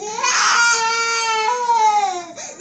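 A young boy cries in a continuous, wavering, high-pitched wail with a few swooping changes of pitch. The crying is loud and alone, with a short dip near the end before another sob begins.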